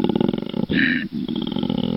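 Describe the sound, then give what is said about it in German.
A koala bellows a territorial or mating call: a deep, rasping, rapidly pulsed roar that breaks off briefly into a higher, hissing, wheeze-like segment, then resumes its low throbbing pulses until the end. “Ich habe mal was mitgebracht hier, das ist ein Koala-Bär.”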